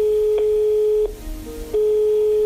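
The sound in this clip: A telephone line tone sounds as a call is placed: a steady, loud, mid-pitched tone with faint clicks, broken by one short gap before it resumes.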